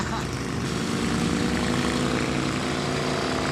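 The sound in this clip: An engine pulls with strong low-end torque at low revs. It gives a dense, continuous, deep droning roar that holds steady and loud throughout.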